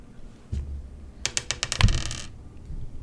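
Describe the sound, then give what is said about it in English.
A microphone dropped onto a table gives a dull low thud, then a quick rattle of sharp clicks ending in a heavier knock, with no talk. “And stop dropping your microphone.”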